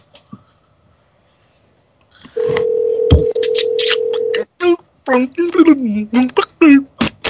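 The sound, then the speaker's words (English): A steady telephone dial tone sounds for about two seconds as a call is placed back to someone. After it stops, voices talk in short bursts. “Right, I'm calling right back. We'll get him to answer.”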